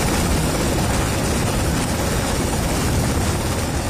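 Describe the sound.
Loud, steady helicopter roar from a military exercise staging a casualty evacuation by helicopter, a broad, even rush of rotor and engine noise that holds unchanged throughout without pauses.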